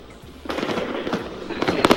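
Firecrackers go off at a crowded street party: many sharp, loud cracks and bangs over steady background noise, ending in a quick cluster of bursts.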